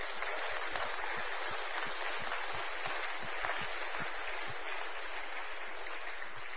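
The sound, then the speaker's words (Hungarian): Steady applause from a church audience during a bilingual English and Hungarian service, a dense, even wash of clapping that holds at a moderate level for the whole stretch without pause. “Let's give the Lord a hand. Tapsoljuk meg az Urat.”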